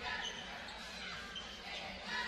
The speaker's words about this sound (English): He's going to dribble back up to the top.